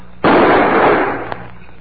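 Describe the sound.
A pistol fires one loud, abrupt shot during a gunfight, its sharp crack trailing into a long, fading tail, followed by a faint, brief pop.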